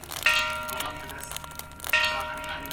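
The keirin last-lap bell at the Keiokaku velodrome rings twice, each a bright metallic clang with a shimmering tail, over a low, steady background hum.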